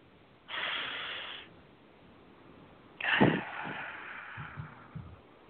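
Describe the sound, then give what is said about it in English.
A slow, deep breath comes as two faint, airy rushes of air separated by a pause of over a second. The second is longer and slightly stronger. “Just take a nice deep breath.”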